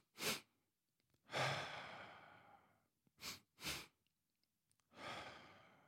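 A person doing a breathing exercise: a short sharp breath and a long, airy exhale, then a double inhale of two quick sniffs and another long, fading exhale.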